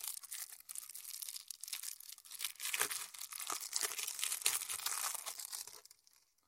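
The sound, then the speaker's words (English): Packaging of the Fairytale Gloom game is unwrapped with faint, continuous crinkling and tearing, sharp crackles coming in irregular bursts before the noise fades out at the end. “So I'm going to unwrap it first so that there's only a little bit of thing. And then I can crossfade too. So so I'll stop talking and unwrap it and maybe leave the sound effect in.”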